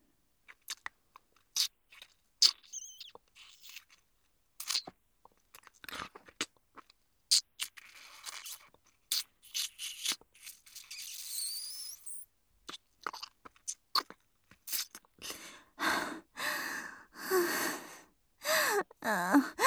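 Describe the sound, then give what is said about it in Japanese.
Roleplay sounds of a vampire biting and drinking blood: many soft, wet clicks, crunches and gasps, quiet and sparse at first, then denser and louder slurping toward the end, with no talk. “やっぱりあなたの血は何よりも美味しいわ。生命力が流れ込んでくるのがわかる。もう一口。”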